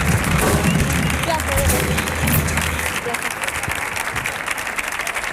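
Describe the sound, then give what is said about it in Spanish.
An audience applauds a guest coming onto a stage, a loud, dense, steady wash of clapping that runs the whole time with voices mixed in. “Fuerte el aplauso, por favor, para Juan Díaz, que va a subir aquí a charlar un poquito con nosotros.”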